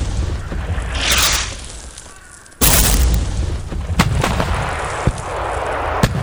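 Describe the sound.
Dull, heavy blasts of shelling near a stretch of woods. A loud booming explosion hits midway, then sharper thuds follow over a continuous rumbling roar.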